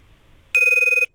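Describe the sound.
Telephone ringing on a call being placed: a single burst of electronic ring tone, steady and bright with a fast warble, about half a second long, alone after near silence.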